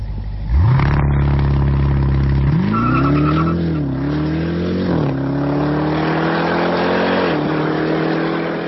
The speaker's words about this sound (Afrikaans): Kyk, as jy na hierdie klanke luister, dan is ek seker jy sal weet dat hierdie is die vinnigste en kragtigste produksie sportnuts wat al ter wêreld gebou is. Luister net gou hierda.